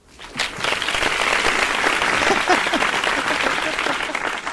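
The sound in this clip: Applause sound effect: a burst of many hands clapping swells up within the first half second, then holds loud and steady to the end, with a voice faintly audible beneath.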